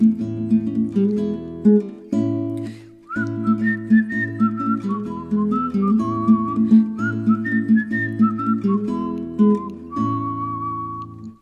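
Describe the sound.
A person whistles a bright, clear melody of a children's song, the notes stepping up and down in short phrases over a steady, lower instrumental accompaniment that keeps a regular pulse throughout.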